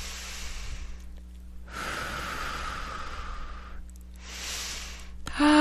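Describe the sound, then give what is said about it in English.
A slow deep breath during a guided healing session: a long, airy inhale of about two seconds, a pause, then a shorter soft exhale, all quiet over a faint steady hum. “Another nice deep breath.”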